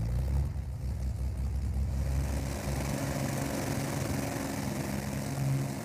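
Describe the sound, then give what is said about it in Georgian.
A small propeller aircraft taxis at an airfield in Iceland, its engine giving a continuous low droning rumble at steady loudness, with no voices. “პატარა ისლანდიელები მანქანების მაგივრად თვითმფრინავებს აგორებენ.”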